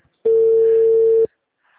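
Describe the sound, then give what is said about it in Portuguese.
A telephone ringback tone sounds while a call is being placed: a single steady, clean mid-pitched tone lasts about a second, then silence. “eu tô ligando. Até ele atender, eu tenho que esperar. Eu tô aqui ligando.”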